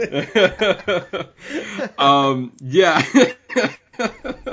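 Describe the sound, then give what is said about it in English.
A person clearing the throat with a few short, rough, raspy bursts amid talking voices. “Excuse me. I thought the beginning was fun. Yeah. Clear that throat.”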